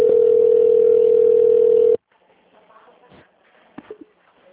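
A steady, loud telephone tone plays while a call connects to an extension. It holds for about two seconds, then cuts off abruptly, leaving faint line noise and a couple of soft clicks.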